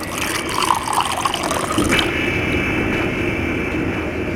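Schnapps poured into a glass until it is full, a steady liquid splashing and trickling that settles into an even stream, with no voices.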